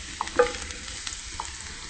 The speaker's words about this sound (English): So the first thing is the oil and our garlic. Just slightly saute it about 30, 40 seconds to give it that garlic flavor.